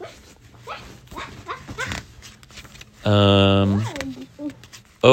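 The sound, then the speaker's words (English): A child imitates a dog, letting out a loud, sustained howl-like yelp after stretches of talk, with a short bark-like burst at the very end. “Are you pretending to be a dog like Bluey? I'm chasing my own tail.”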